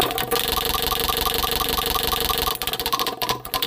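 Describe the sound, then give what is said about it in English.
Rapid mechanical clicking of a prize wheel being spun to pick the next segment, fast and steady for over two seconds, then turning more uneven and broken toward the end. “go ahead and spin that wheel.”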